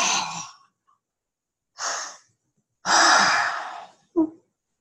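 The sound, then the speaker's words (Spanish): Deep breathing after tensing the body: four separate breath sounds. The third is a long, loud, airy exhale, and a brief short puff follows it, with silent pauses in between. “Toma una inhalación profunda. Inhala, tensa, tensa, tensa, tensa tu cuerpo. Desde tu abdomen y exhala.”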